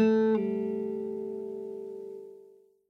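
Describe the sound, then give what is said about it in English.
A guitar pull-off on a single string: one plucked note switches abruptly to a second note as the fretting finger releases, and that note rings on and slowly fades over about two seconds. “So you'll press on the indicated fret, play that string, and while it's resonating, pull off of that string. And it sounds like this.”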